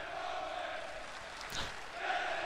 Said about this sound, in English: This is a crazy crowd, it always is. Oh my god. Oh, these people are crazy.